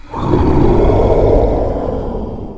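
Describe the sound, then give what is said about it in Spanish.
Monsters roar their terrible roars in one loud, deep, rumbling roar that swells quickly and holds for about two seconds before easing slightly. “Ellos rugieron sus rugidos terribles.”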